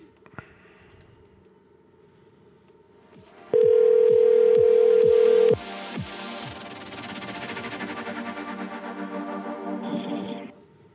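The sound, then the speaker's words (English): Telephone tone on a prank call: a loud, steady single-pitch tone holds for about two seconds among a few sharp clicks, then gives way to a continuous buzzing line noise. “please leave your message for 6. oh, this one's ringing.”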